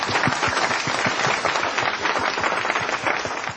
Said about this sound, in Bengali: আমি মানে ওকে কিছু বলার আগে একটা বিশাল তালি দিতে চাই, বিশাল।